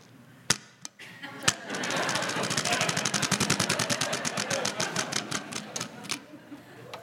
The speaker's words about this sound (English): There are numbers corresponding to all the spokes on this spinning wheel, and I have corresponding questions to match each number.